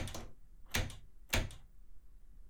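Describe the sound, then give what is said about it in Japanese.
Knocking on a door: three short, sharp bursts of raps, each made of a couple of quick hits, spaced evenly with quiet gaps between them and no voices. “ちょっと、ドア叩かないでよ。”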